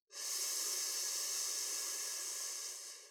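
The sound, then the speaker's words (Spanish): Air hisses out through clenched teeth in one long, steady exhale of about three seconds, taken during a pelvic floor breathing exercise. The quiet, even breathy noise fades slightly at the end. “Una breve pausa, apretamos los músculos del piso pélvico y expulsamos el aire por los dientes.”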